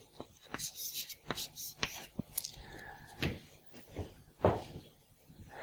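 Writing on a board during a lecture on process definitions: many short, scratchy strokes in an irregular rhythm, fairly faint, separated by brief pauses.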